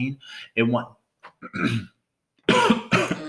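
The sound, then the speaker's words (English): A coughing fit set off by pepper, heard as a series of harsh, voiced coughs and throat-clearing bursts in uneven clusters separated by short silent gaps, ending in two loud, rough coughs. “And now, look, cough attack.”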